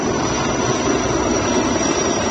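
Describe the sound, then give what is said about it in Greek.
Constant, loud drone of an Erickson firefighting helicopter's engine and rotor, working over dozens of smoking spots on a burnt mountainside. The broad, rumbling noise stays unbroken throughout. “στο βουνό υπάρχουν δεκάδες καπνογόνα σημεία τα οποία περιορίζονται με ρήψεις νερού από τα ελικόπτερα Έριξον”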